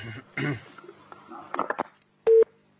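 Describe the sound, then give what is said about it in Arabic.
A loud electronic line tone marks a telephone call cutting off. It is one short, steady beep that follows a stretch of talk. “انقطع الاتصال. طيب لحد ما يجي الاتصال.”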